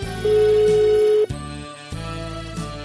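Ringback tone of an outgoing phone call while waiting for the other person to answer. One steady mid-pitched tone lasts about a second, and music continues underneath.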